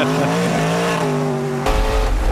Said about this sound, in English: I'll just drift up this mountain at 100 miles an hour.